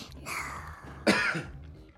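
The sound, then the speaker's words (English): A child coughs twice, short, fairly quiet bursts under a steady background hum, the second cough sharper and slightly louder than the first. “Whoa, you got a cough. Need a drink?”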